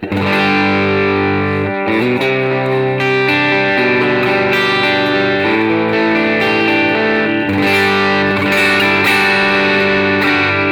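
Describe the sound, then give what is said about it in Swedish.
Electric guitar played through a dirt distortion effect from an effects app: loud, gritty chords that ring out in dense, sustained layers, changing chord a couple of times, with no talking. “Och så har jag gjort ett dirt också då, att säga, som låter så här.”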